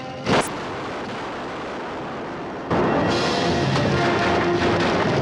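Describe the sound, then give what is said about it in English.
A burning hut explodes during a battle at the Alamo with Texian raiders nearby: a dense, roaring rumble with a brief burst early on, then an abrupt jump to a louder, sustained crackling roar. “The huts are in flames, and one of them explodes behind the Texian raiders.”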